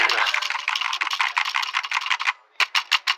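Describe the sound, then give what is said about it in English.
Rapid clicking and rustling made by handling a microphone to imitate typing on a computer keyboard: many quick, uneven taps in a steady run, a brief pause, then a few more separate clicks. “I'll just look on my computer if I just take my microphone here and make some typing noises”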